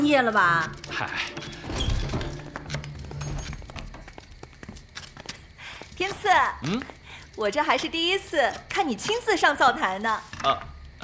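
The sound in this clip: A knife chopping scallions on a cutting board for soup, cooked over a wood-fired stove: quick, light, repeated knocks, partly masked by people talking throughout.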